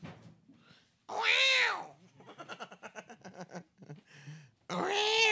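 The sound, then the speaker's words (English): A cat meows twice: two loud, drawn-out meows with a rising and falling wail, separated by a stretch of softer, rapidly pulsing voiced sounds. “That's the cat.”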